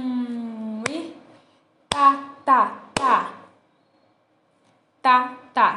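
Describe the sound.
Hand claps keep a beat in a rhythm lesson, several sharp, crisp claps alternating with short sung or spoken syllables, separated by gaps of near silence.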